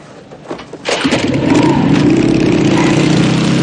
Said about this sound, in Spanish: Se monta en su moto.